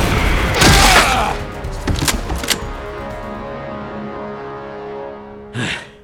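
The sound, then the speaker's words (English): Gunshots ring out as a few sharp cracks and heavy thuds in quick succession, then fall quiet before one more brief burst near the end. “She came to take out Quisad. What she got was a bullet.”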